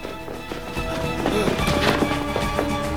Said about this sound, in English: Amnon fires, hitting Rudy, who returns with a bullet of his own.